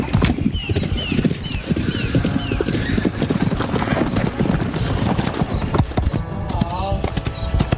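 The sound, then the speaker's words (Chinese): Horse hooves clip-clop in a fast, steady rhythm as a horse works through a show-jumping pole course during rider training. Many hoofbeats continue throughout, with people talking over them. “插杆需要骑手熟练掌握起跳时机，才能与马匹共同跨越，这也是他们需要重点攻克的项目。”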